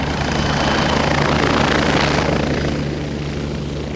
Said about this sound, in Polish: Maciej Dominiak, pilot Bolkowa 105. My mamy w ogóle obsadę dwuosobową, ponieważ latamy z pirotechniką.